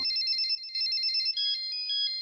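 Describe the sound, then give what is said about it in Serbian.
A mobile phone ringing with an electronic ringtone: a bright, high, tonal melody that repeats in a steady pattern for the full two seconds, faint and with no talk over it. “Kad zazvoni mobilni telefon.”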